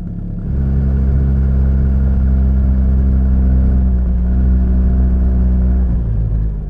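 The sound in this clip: A Rhino off-road vehicle engine runs as it sets off, giving a loud, steady, low rumbling drone with a shift in engine note near the start and again near the end.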